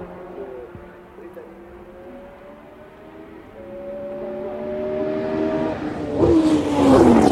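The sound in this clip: A Formula 1 racing car downshifting: a steady engine drone builds gradually in loudness, then gives way to sharp, loud rev bursts with shifting pitch at the end.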